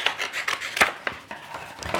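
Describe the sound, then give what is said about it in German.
Paper being cut open along a sealed book page: faint, dry scraping and snipping strokes in an irregular series, with a few sharper clicks and no talk. “So, ich schneide die Seite wieder auf.”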